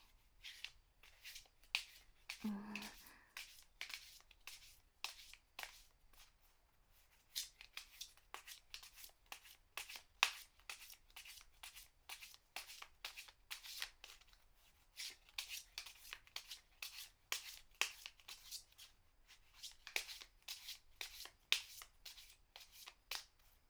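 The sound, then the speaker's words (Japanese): Someone shuffles a deck of tarot cards, a quiet, steady run of many quick papery riffles and slides that keeps going throughout. No voices are heard. “まずは、もう一度カードをシャッフルして、”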